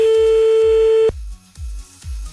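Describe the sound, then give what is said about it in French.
Telephone tone of an outgoing call: a steady, single-pitched beep held for about a second, then cut off abruptly into near silence. “Bon allez, c'est parti, on y va, on appelle un autre.”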